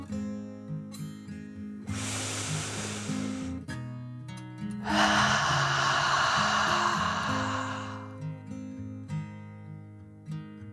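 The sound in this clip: A deep, slow breath drawn in and then let out, two soft rushing breaths separated by a short pause, heard over gentle music with sustained low tones.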